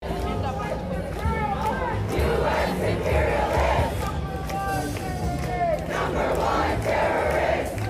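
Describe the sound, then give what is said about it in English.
Crowd chanting slogans at a pro-Palestinian protest in a New York park near a university: many loud massed voices shouting together in a steady rhythmic chant that fills the whole clip. “Daily Signal columnist Jarrett Stepman attended a pro-Palestinian protest near New York University today at Washington Square Park and heard this chant.”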